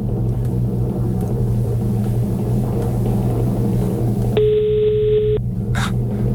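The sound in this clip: A phone ringback tone sounds once while a call is placed, a steady electronic burst of about one second over a constant low hum, with a brief faint noise just after.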